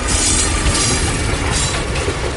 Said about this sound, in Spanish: Pasajeros, ¿escuchan eso? Sí, es la locomotora entrando en acción